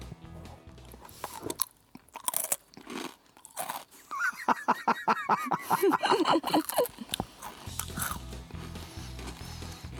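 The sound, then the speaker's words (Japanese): A person chewing food they have been fed during a taste-guessing game, with many sharp, crunchy bites in an irregular rhythm that grow denser through the middle and then ease off. “咀嚼音がしてます”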